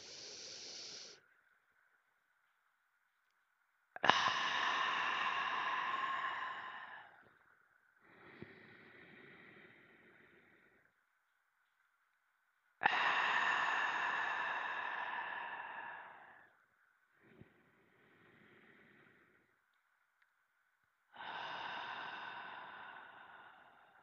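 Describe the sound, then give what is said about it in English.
Deep, slow breaths drawn in and let out from the diaphragm during a guided meditation, long airy inhales alternating with softer exhales, separated by silent pauses in an even, unhurried rhythm with no speech. “take 3 deep breaths with me, really deep in your diaphragm, all the way up to your upper chakras, and let us start now”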